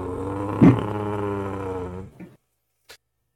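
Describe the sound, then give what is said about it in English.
Soft, low rumbling groan from slow, shuffling creatures moving through woods: a sustained, droning moan lasting about two seconds, followed by a shorter, fading grunt and then quiet. “They're groaning extremely, not extremely loud, but there's like a soft, rumble of a groan that seems to be coming from these things”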